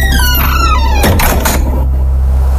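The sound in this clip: A door opening sound effect: a descending squeaky tone leads into a short burst of rattling, scraping noise lasting about half a second, over a steady low hum, with no voices.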